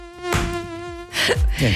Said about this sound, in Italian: la zanzara tigre, mi diceva Cristina, vola bassa e ti frega sempre.